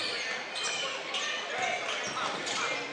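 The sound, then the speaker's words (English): Basketball dribbled during a high school game between Holly Pond and Good Hope, a run of quick bounces thudding under a commentator's steady talk. “Malin dribbles the corner and has to give it up to Overton.”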